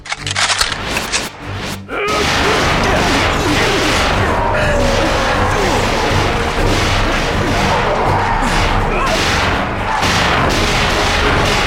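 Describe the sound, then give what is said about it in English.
Cannon or gunfire opens on command: after a short, softer lead-in, a sudden dense barrage of loud booms and cracks erupts and rolls on continuously to the end. “fire at will.”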